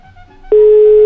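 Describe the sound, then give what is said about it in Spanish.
A telephone call connects with a loud, steady mid-pitched tone that switches on abruptly and holds, following a quieter stretch of faint humming line noise. “Yo escucho Radio Gallito y listo, dejen que se enlace la llamada. Una vez que se enlace la saco al aire. Ya se enlazó, la sacamos al aire.”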